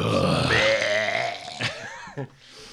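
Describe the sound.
A person imitates a burp with their voice, making a long, croaky belch that sweeps upward in pitch and is followed by a couple of short throaty bursts before quiet.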